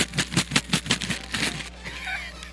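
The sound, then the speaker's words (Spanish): A bag of Skittles candy is shaken, its contents rattling in quick rhythmic bursts of crisp clatter. The shaking stops, leaving a faint rustle. “voy a hacer este ruido para que luego no anden diciendo, no, es que suena muy feo el... Pues entonces voy a agitar mis Skittles.”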